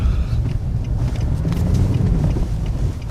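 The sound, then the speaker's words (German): An off-road vehicle drives through a reclaimed open-cast mine, giving a continuous, fairly loud low engine and tyre rumble. Buffeting wind noise runs through it with no break. “fährt mit mir im Geländewagen in einen rekultivierten Tagebau”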